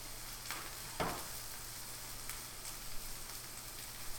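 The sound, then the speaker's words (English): Bacon sizzling in a pan during breakfast cooking, a faint, steady crackling hiss broken by a few small pops, with no talking. “It's bacon right now, and then French toast, and then if you want eggs.”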